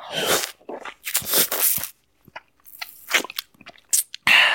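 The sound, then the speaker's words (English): Crunching and chewing of an orange lollipop eaten right against a headset mic: several loud, wet crunch bursts with short quiet gaps between them, the last burst running to the end. “Weirdly, right? I didn't realize I sound like this when I eat a lolly, because obviously I've got a mic on a headset”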